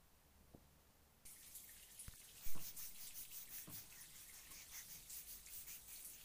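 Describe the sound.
Shower water rinsing a person during a bath: after a quiet second with a few soft knocks, a steady, bright hiss of spray starts and continues to the end.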